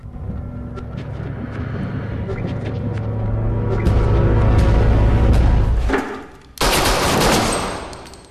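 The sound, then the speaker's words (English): A gun is fired in a room at a seated, hooded figure. A low rumbling drone builds, dips briefly, then gives way to a sudden, loud, sharp burst that rings on. “He stands and shoots the hooded figure seated in a chair in the corner of the room, then stares expressionlessly at Hirsch.”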